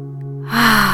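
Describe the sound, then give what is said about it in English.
A slow cleansing inhale through the nose during a guided breathing exercise: a soft, airy rush begins halfway through and builds steadily over a sustained background tone. “let's take three cleansing breaths together to let go. So inhaling through your nose,”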